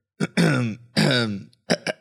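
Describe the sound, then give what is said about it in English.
Throat clearing by one person: two long, voiced rasping pushes followed by a couple of short, sharp catches, alone without speech. “just clearing my throat there.”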